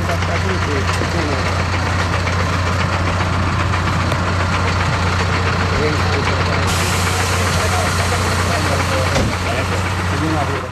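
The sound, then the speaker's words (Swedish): A military vehicle's engine idles with a steady, loud, low rumble, heard from inside the vehicle's cab and unbroken for the whole stretch. “och så här lät det när de var i militärfordonet”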